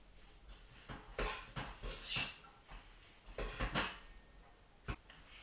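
Stirring food in a hot pot: a utensil clinks and scrapes against the pot in several short, sharp bursts at an uneven pace, alone over a faint background hiss.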